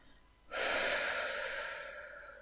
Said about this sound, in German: Tief ausatmen.